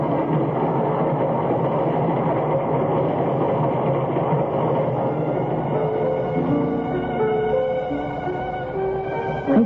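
A train in motion, a sound effect in a drama set around a railway platform: a steady, loud rumble with a faint rhythmic clatter that runs unbroken through the whole stretch.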